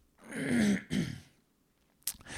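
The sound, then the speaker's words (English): Throat clearing in two harsh, rasping bursts back to back, fairly loud and on its own, followed after a short pause by a brief sharp sound. “sorry, I should clear my throat before I start the show, but that's the first time I talk today.”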